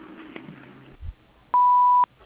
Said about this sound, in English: So please leave a message after the beep.